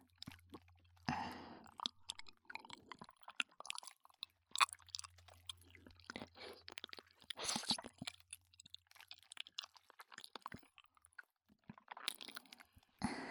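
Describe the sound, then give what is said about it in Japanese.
Soft mouth sounds of gentle biting with the lips: many small, wet clicks and smacks in an irregular patter, quiet and close, with a faint low hum in places. “唇で甘く噛んであげます。”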